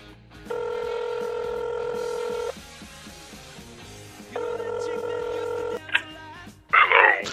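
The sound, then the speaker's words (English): A telephone number is dialed with two long, steady touch-tone beeps separated by a pause, followed by a short click and a brief burst of clatter at the end. “let me just dial him up”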